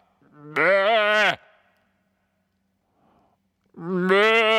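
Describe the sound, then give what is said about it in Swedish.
A person imitates a sheep with two loud, quavering bleats separated by a stretch of silence. “ett får är skitlätt att härma”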